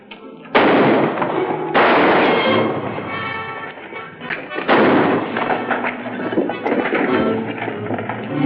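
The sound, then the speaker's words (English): Gunshots in a film gunfight scene, with a shooter firing from a balcony at attackers: a few loud, sharp blasts stand out over dense, continuous crackling and rumbling gunfire that keeps going for the whole stretch. “She sees the heavies closing in on the boyfriend. As they start to shoot, she opens up on them.”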